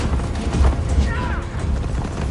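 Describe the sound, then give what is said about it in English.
Armoured horses gallop through woods, a dense, continuous rumble of hooves with no distinct separate beats, loud throughout. “They gallop through the woods on horses clad with armour, the king amongst them.”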